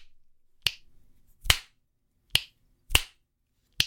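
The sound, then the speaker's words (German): Five crisp finger snaps, each a sharp bright click with a quick decay. They come at uneven intervals over near silence. “Jetzt schnips ich mal. Boah, es ist leise.”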